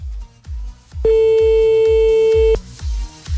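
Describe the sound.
A steady telephone tone sounds while calling someone back. It is a single loud mid-pitched note held for about one and a half seconds over a regular pulse of low thumps that runs through the whole clip.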